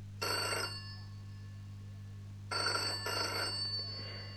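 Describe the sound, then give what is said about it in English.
A telephone bell rings in bright, trilling bursts: one short ring, a pause of about two seconds, then a double ring. A faint, steady low hum runs underneath, and no voices are heard. “The telephone's ringing. Can you answer it, please?”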